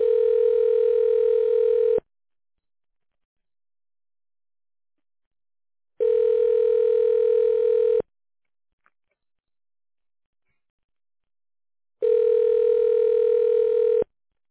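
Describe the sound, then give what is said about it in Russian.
Telephone ringback tone while a call is being transferred to a secretary: three long, steady mid-pitched tones of about two seconds each, separated by roughly four seconds of silence. “Ваш звонок переводится на секретаря.”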